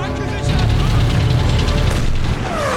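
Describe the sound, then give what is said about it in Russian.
A tank gun fires in a war film, a heavy boom followed by a sustained roaring rumble as the shell flies over soldiers' heads. “Выстрел из танкового орудия. Снаряд летит над головами бойцов.”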